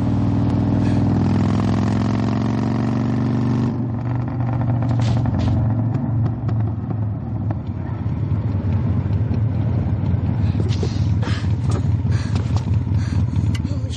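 A motorcycle engine runs with a loud, continuous rumbling drone that shifts slightly in tone partway through and carries on steadily to the end.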